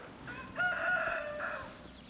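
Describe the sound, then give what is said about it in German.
A rooster crowing: one hoarse cock-a-doodle-doo that swells into a held middle note and then trails off, heard alone over a steady background hiss. “Wegen diesem Hahn.”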